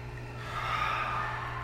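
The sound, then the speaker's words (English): A slow, deep breath, drawn in through the nose and let out through the mouth, during a guided yoga session. It is a soft, airy, faint rush of breath over a low, steady hum. “Take a deep breath in through the nose and let it go through the mouth.”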